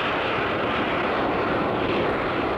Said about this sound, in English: We're going to show the unique ability of the aircraft to stop, hover. The AV-8B Harrier.